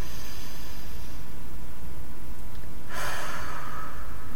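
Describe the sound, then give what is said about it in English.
A deep inhale through the nose during a guided breathing exercise: a breathy hiss of airflow rises about three seconds in over steady background noise. “Again, inhale through the nose, exhale through the mouth. And that felt so good, we're going to do it again. Inhale through the nose.”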